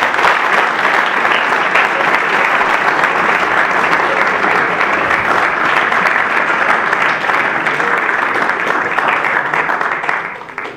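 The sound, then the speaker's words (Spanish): Loud audience applause welcoming speakers at a lecture on the Catholic Church and guerrilla movements in Argentina, a thick continuous roar of many clapping hands that holds steady for about ten seconds before tapering off at the end. “Así que los recibimos con un fuerte aplauso.”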